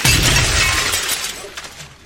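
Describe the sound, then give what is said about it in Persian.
Window glass shatters from a gunshot: a loud burst of breaking glass that gradually trails off over about two seconds. “فرید به پنجره شلیک میرسید.”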